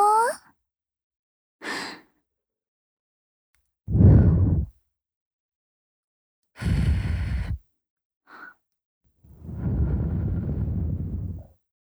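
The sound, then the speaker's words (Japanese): Soft breaths blown gently into the ear to finish an ear cleaning: several slow, airy puffs separated by silent gaps, with a few brief voiced breaths in between. “じゃあ、ふうふうして終わろっか。”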